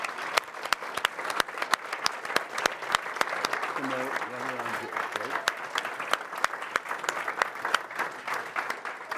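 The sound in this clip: An audience applauds a volunteer called up on stage, with crisp, continuous clapping throughout and a brief vocal sound rising over it midway.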